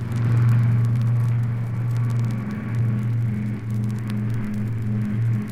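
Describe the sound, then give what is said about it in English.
A car speeding toward a harbor gives a loud, continuous engine drone, a low rumbling hum with a whirring edge that holds steady throughout, with no voices. “alerted by the police, the Batman and Robin are speeding to the harbor in their Batmobile.”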